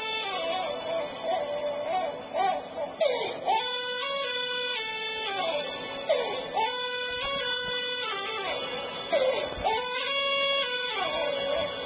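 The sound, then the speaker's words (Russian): A baby cries alone in loud, high, wavering wails that come in a steady rhythm of repeated cries, with brief catches of breath between them. “Послушайте, пожалуйста, как плачет ребенок, на самом деле молится.”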